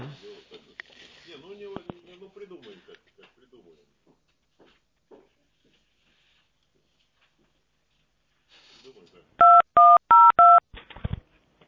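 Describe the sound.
Telephone keypad tones sound while a call to a sales office is being transferred to a specialist: four short, even beeps follow in quick succession after quiet talk and a long, near-silent gap.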